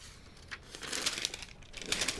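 Paper crinkling and rustling as a blue letter is handled and unfolded, with a few crisp crackling bursts of moderate loudness and no voices.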